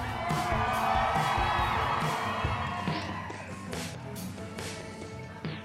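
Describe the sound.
Crowd cheering and whooping at a live comedy show in Dallas: a loud, sustained roar of many voices with scattered shrill yells that holds for several seconds, then eases slightly while staying lively.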